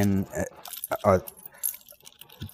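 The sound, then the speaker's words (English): Keys jangle on a ring, a set for buildings on a military base, in bright, scattered metallic bursts under ongoing speech. “some of these keys are to different buildings around here on the base”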